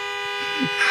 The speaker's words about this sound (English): Why didn't you take your cart back, sir? Why are you honking?